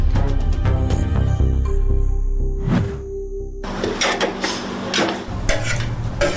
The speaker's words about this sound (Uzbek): Lekin qarang, soat endi 9 bo'ldi-yu, nimcha erta osh pishiryapsizlar?